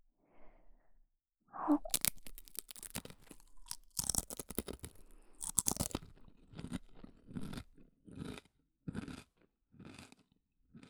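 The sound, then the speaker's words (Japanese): Crunchy bites into karaage, Japanese fried chicken, giving sharp, loud cracking crunches followed by many softer, uneven chewing crunches with short pauses between them. “唐揚げはバキッっていう強めの音。”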